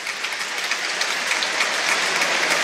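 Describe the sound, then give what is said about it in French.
A stadium crowd at a football match applauds during a minute of applause held as a tribute, a dense, even wash of clapping that stays steady throughout. “Et vous entendez peut-être la minute d'applaudissement, la minute 23, la minute dédiée”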